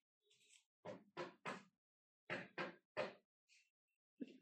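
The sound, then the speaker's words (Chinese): Knocking on a door: two quick sets of three firm raps, with a few fainter single taps around them, in otherwise quiet surroundings. “谁在敲门啊？”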